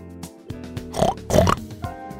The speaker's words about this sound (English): A butcher enters with a pig.